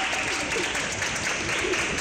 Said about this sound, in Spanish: En el aeropuerto, los pasajeros fueron recibidos entre aplausos y música.